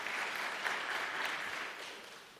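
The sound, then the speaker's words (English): Applause from a church audience: dense, steady clapping that holds an even level and thins slightly toward the end. “Thank you, guys. Give them a hand. They were a good audience.”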